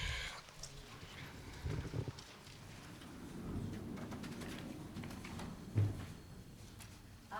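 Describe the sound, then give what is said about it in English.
Doors being opened during a prayer service before the Aleinu prayer, heard as a few faint, dull thumps and low rumbling shuffles spread across several seconds, with no talk. “We'll just open the doors.”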